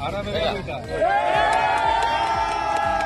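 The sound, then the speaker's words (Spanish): Spanish military emergency rescue workers cheering after pulling survivors alive from rubble in a disaster zone, with excited shouts and a rising whoop over continuous crowd babble and overlapping voices. “la alegría de los rescatistas cuando consiguen sacar de entre los escombros a personas con vida. Este es el sonido de los brigadistas españoles de la UME, de la Unidad Militar”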